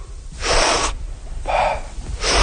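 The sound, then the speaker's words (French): A freediver takes recovery breaths after surfacing, with elbows resting on a buoy. A few big, forceful, rasping inhales come in quick succession, each a loud breathy gasp separated by short quieter pauses. “on va prendre nos respirations de récupération. Ça va être une grande inspiration”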